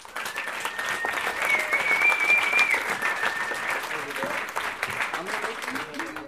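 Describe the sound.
An audience applauds in welcome as a storyteller is introduced at a live storytelling event. The clapping is dense and steady, swells through the middle and eases slightly toward the end, with some voices mixed in.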